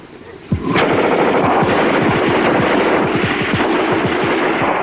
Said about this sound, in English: The squad lets loose from their line on the ridge, scattering the defenseless Germans. Shots flash as shells fly from rifle breaches.